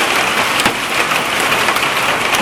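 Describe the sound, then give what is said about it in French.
Hail falls in a loud, dense, continuous clatter, a hissing patter of many stones striking surfaces, with a few sharper impacts standing out. “la grêle.”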